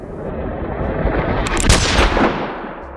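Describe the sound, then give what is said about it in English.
Gunfire in a steakhouse, loud booming blasts blurring into a dense, continuous roar that swells to a peak midway and then eases off. “I hadn't finished the sentence when the first bullet hit. Was on the floor when the second skimmed my ear.”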